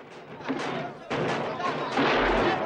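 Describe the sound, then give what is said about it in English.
Two rifle shots in a film battle scene, a pair of hard bangs amid dense, noisy combat sound, with a voice speaking over the action. “He shoots one soldier, then another, only to fall victim to two rifle shots.”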